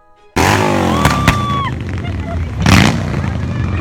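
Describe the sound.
Motorcycle engine roaring as a rider carries a gender-reveal display down a street, with a loud rising rev at the start that settles into a steady, continuous drone and voices mixed in.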